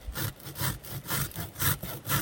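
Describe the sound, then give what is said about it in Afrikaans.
A blade sawing off the burnt part of something, with a steady run of rough back-and-forth strokes, each one a grainy rasp rising and fading in an even rhythm, heard alone without talk. “Ja, ons kan hy net afsny. Jy sny net die brand af.”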